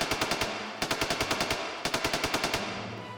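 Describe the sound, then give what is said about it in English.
Gatling gun firing in rapid bursts: three quick volleys of sharp, closely spaced shots with short gaps between them. The fire is loud and heard alone. “Upon establishing a perimeter with the Indians to the north and the Montesian contingent to the west, I ordered the Gatling to open fire on the Hellspawn.”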